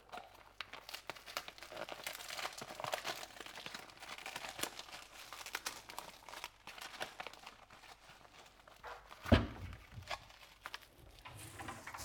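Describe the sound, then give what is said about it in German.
Plastic film packaging around a bundle of soup greens with parsley is torn open in a home kitchen: faint, continuous crinkling and rustling, broken by one sharper, louder crackle near the end. “Ich werde jetzt das Gemüse aufmachen, das Suppengrün.”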